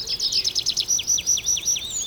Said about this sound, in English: You hear some birds chirping as we transition from one booth to the other.